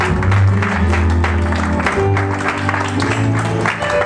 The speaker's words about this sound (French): Est-ce que tu peux acclamer Dieu pour ta vie, pour cette puissante intercession